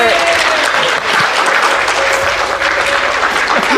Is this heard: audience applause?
yes